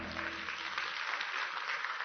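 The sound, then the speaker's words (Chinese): Dense applause from a church audience, a steady wash of many hands clapping that stays even throughout, with a faint low hum fading out early and no clear voices. “我哋俾掌声我哋神好嘛？”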